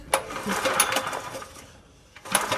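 A petrol engine being cranked in an attempt to start it despite a fuel leak: rapid, rattling mechanical bursts for over a second, a quieter lull, then another short burst of cranking.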